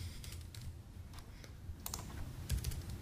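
Someone types on a computer keyboard, producing scattered, soft keystroke clicks in short irregular clusters over a low, steady background hum, with no speech.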